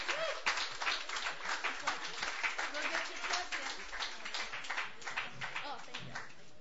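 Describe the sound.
Audience applause welcoming a young songwriter to the stage at an open mic night, a dense, steady patter of clapping lasting throughout, with crowd voices mixed in.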